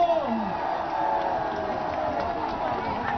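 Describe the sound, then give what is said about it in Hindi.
A crowd at a public speech claps and cheers loudly: a continuous, dense wash of clapping and crowd noise that stays at an even level for about three seconds. “एक बार अपने लिए जोरदार तालियां बजा दो,”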